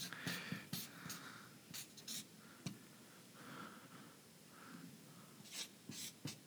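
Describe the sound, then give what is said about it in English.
A pen scratches on paper as a single word is written down. The faint strokes come in short, uneven bursts separated by quiet pauses, with no voices. “Yeah, I'm just going to write the word priority down. Hope that's okay.”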